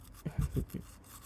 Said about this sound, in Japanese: 奥歯も磨くから、歯、あーって、もっとあーってして。